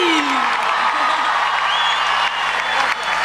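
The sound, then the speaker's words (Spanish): Audience applause, a continuous dense spread of clapping mixed with crowd noise, steady in volume with only slight dips near the end. “¡Fuerte el aplauso para Nico Mattioli! ¡El aplauso para Nico Mattioli!”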